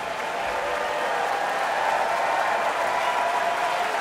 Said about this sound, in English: The audience here in Marian Anderson Hall is showing their full and enthusiastic approval.